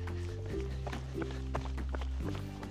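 Footsteps of a hiker setting off into a mountain trailhead, a string of light, evenly paced steps over a steady low tonal background.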